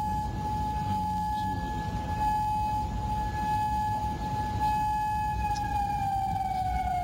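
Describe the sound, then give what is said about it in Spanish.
An air raid siren wails at night in Kuwait, warning of attacks. It holds one long, steady, piercing tone and sags slightly in pitch near the end, over a constant low rumbling background. “A esta hora se escuchan sirenas antiaéreas de alerta de ataques en Bahrein y en Kuwait.”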